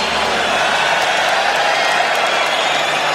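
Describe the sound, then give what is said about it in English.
Audience applause for clients at an event, a loud, dense wash of clapping and crowd noise that stays steady from start to finish. “applause for all the clients.”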